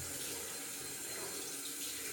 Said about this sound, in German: da ich mich jetzt anziehen will, möchte ich mich auch gerne waschen.